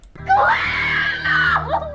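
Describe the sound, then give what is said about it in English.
A woman's single high-pitched scream, played as a sound clip, holds loud and shrill for nearly two seconds before wavering and breaking off at the end. “That's one of those like annoying screams where you're like, you think about calling the cops and then don't.”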